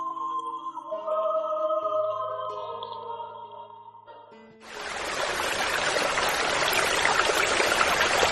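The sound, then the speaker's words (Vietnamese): The Anoma River flowing, a dense, steady rush of water that swells in suddenly partway through and stays even to the end, after soft sustained music fades out. “Thái tử dừng lại bên bờ sông Anoma.”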